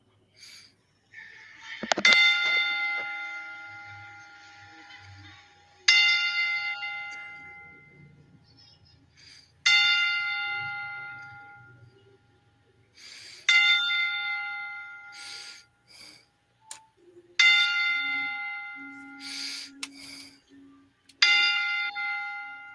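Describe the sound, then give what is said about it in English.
A bell tolled slowly as a memorial salute: six strong, evenly spaced strikes about four seconds apart, each ringing out with a long bright decay before the next, with no voices. “Jessica Walter with the 10-bell salute as we toll the bell 10 times.”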